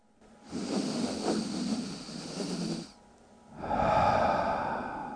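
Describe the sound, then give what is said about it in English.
A stuttering breath like the catch before crying: a shaky inhale broken into several quick hitches, a brief pause, then a longer, louder breathy exhale. Human breathing, fairly soft, with no talk. “It's called a stutter breath. And it sounds like the sound that you make when you're about to cry, that same breath. And it sounds like this.”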